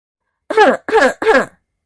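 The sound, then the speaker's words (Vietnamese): A voice performs three short, dry coughs for a monk coughing hard beside two others. The bursts are evenly spaced, harsh and throaty, close to throat clearing, with brief silences between them and no other sound. “ở bên cạnh liều mạng ho khan”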